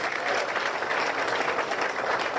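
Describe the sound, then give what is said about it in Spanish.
Steady applause from an audience at a formal civic ceremony, given after a speech by a commission president. The clapping is continuous, dense and moderately faint, with no talk over it. “Fuertes los aplausos para doña Andresa”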